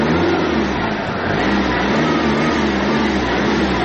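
Steady, loud engine drone of an old taxi car whose model has been out of production for about fifteen years, running smoothly with an even, low-pitched rumble throughout and no voices.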